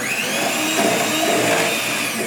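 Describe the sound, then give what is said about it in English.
An electric hand mixer runs at full speed, whisking a cornstarch mixture for chocolate eclair filling. It gives a continuous, bright, buzzing whir that stays steady and fairly loud, with no talking. “Also, I just made the mistake of starting my hand mixer at the full blast,”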